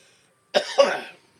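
Two harsh coughs in quick succession from someone who accidentally inhaled cigar smoke, the second trailing off into a rasp before silence.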